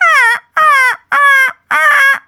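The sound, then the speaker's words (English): A human voice imitates a seagull laugh with four loud, nasal, honking cries in an even rhythm, each sliding slightly downward in pitch, with no other talk. “I am not okay with the seagull laugh,”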